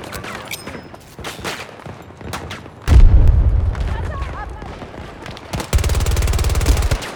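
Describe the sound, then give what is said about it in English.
A grenade explosion and gunfire ring out in a video game. A few sharp shots come first, then a heavy boom that rumbles and decays, then a rapid burst of automatic fire, with voices talking throughout. “Toss a grenade!”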